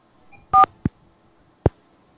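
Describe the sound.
A single short electronic keypad tone sounds as 1 is pressed on a telephone to accept an incoming call. Two soft, dull clicks follow, with silence around them.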